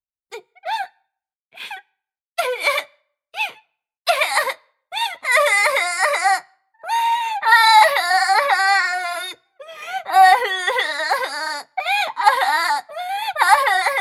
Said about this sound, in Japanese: あらあら、大丈夫よ。そんなに泣かないで。